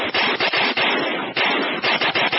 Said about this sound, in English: SWAT officers riddled his body with 68 bullets.